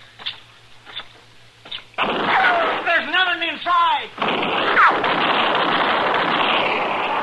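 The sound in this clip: Gunshots ring out in a radio drama shootout: a few sharp reports, then a loud, sustained burst of blasting noise, with voices calling out in the middle of the firing.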